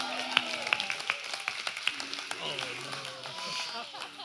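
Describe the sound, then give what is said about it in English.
Applause and clapping for a camera crew at a restaurant: several sharp claps early on, thinning to scattered claps, with voices talking over them. “Let's give it up for our camera crew.”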